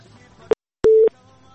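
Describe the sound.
Telephone busy tone after a call is cut off: a brief click, a short silence, then one short, steady beep, followed by a low hum.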